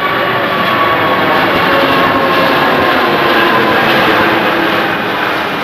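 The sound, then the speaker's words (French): Roar of an Airbus A380 airliner passing over near the runways on its second test flight: a loud, dense jet rumble with a faint high whine that holds steady throughout, with no voices. “Et voici le bruit de l'A380 lors du second vol d'essai d'aujourd'hui.”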